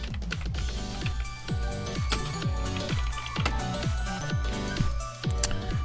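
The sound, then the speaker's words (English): Rapid typing on a keyboard, with many crisp key clicks in a quick, fairly even run that continues throughout, heard alone without talk. “We haven't typed things out audibly on the show yet today because I had my notes all ready to go, but let's type out Tetris.”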